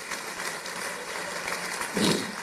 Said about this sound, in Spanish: Un aplauso a Cristo.